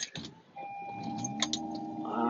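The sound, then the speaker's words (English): A car starts up with a brief burst of noise, then a sustained electronic warning tone sounds over the low hum of the running engine. “I hope that's not too loud. I just started up the car and it's all beeping at me and everything, so sorry about that.”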